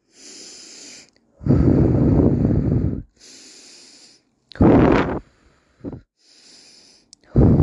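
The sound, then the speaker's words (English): Deep breaths taken during an exercise for coping with emotions: several loud, rushing breath sounds alternate with softer, hissy breathing in between, with no talking. “we're going to take our three deep breaths”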